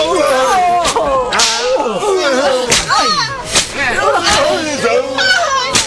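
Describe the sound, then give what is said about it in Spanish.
Whip cracks from flagellants at a penitent procession, several sharp lashes landing at uneven intervals over a steady, loud din of crying and shouting voices. “mientras sonaba incisivo y siniestro el sonido del látigo”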